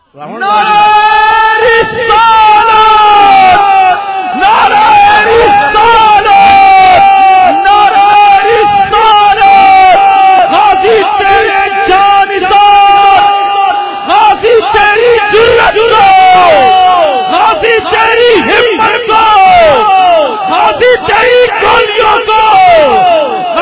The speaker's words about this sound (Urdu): نعرہ لانا ہے تے جنے والا لاؤ ایک گل ہے جڑی تسی نعرہ لا رہے ہو